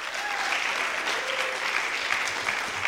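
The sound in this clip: An audience claps to welcome a speaker at an Edmonton CSL gathering. The applause is dense and sustained, an even wash of many hands with no voices above it.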